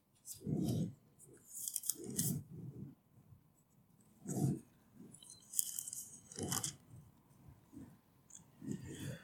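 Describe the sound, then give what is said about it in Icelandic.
Pages of a Bible being flipped through to the Book of Genesis, a series of crisp papery rustles and swishes in irregular bursts with short pauses between, fairly quiet. “Fletti nokkrum blaðsjöðum, fyrstu Mósebók blaðsjöðu 6, 7. kaflan.”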